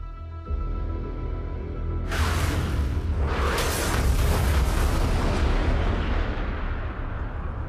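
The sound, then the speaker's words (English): Rocket explosions strike a house in an action film scene. A low rumbling hum gives way to a heavy blast that swells into a sustained roaring, crackling rumble, then slowly eases off. “Rockets head towards Tony's house.”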